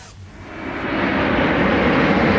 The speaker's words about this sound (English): In the track, the roaring sound of the engine of a plane will mark the beginning of the song and will sound like this.